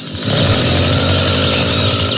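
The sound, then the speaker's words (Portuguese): A chainsaw engine is started and runs, a loud, steady, buzzing two-stroke drone that comes in after a brief moment and holds at a constant, raspy pitch to the end. “liga a motosserra aí. Vamos ver. Vai.”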